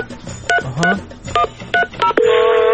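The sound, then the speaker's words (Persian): Telephone keypad tones sound as a number is dialed: several short, clear beeps at an uneven pace, then a steady sustained tone at the end. “بذاری من شمارش رو بگیرم.”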